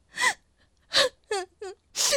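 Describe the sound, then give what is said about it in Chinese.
A girl crying, with five sobbing, wavering wails broken by short gasping pauses, fairly soft in level. “别哭别哭，发生什么事情了？告诉妈妈啊！ 别哭啊，谁欺负你了？”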